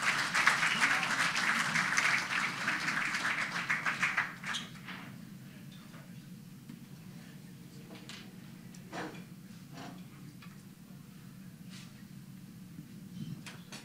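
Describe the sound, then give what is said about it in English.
An audience applauds to welcome a speaker, a steady burst of clapping for about four seconds that drops off to a quiet room with a few scattered knocks and clicks. “Buddy, would you come and do whatever you're going to do this morning? Give him a big welcome.”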